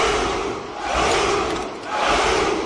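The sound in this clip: Roaring battle cry from an army of Spartan soldiers, about a thousand men shouting together in unison, a dense, loud mass of voices that swells, dips briefly, then surges again twice.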